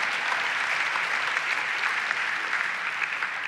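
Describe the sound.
Audience applause in a church building, a dense, steady wash of many hands clapping at an even level for the full length, with no talk over it.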